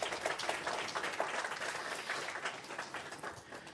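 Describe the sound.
A church audience applauds a new Christian education elder and a community deacon, with steady, dense clapping that holds at a moderate level for the whole stretch and no talking.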